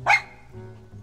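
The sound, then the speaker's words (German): A single short, high bark from a small light-brown dog, sharp and alone, followed by a faint low hum. “2 Schritte von ihr entfernt sitzt ein putziger hellbrauner Hund auf den Hinterbeinen und hält die Vorderpfoten vor der Brust gekreuzt.”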